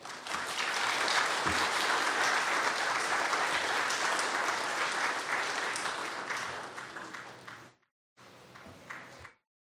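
A church audience at Woodland Christian Church applauds a guest, a loud, dense wash of many hands clapping that holds steady for several seconds, tapers, breaks off, then briefly resumes and fades out.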